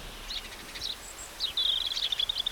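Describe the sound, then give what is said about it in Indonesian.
Birds chirping outside, a few short high-pitched chirps early on, then a denser, quicker twittering in the second half over a quiet background. “Swara manuk pating cerwit nang jaba.”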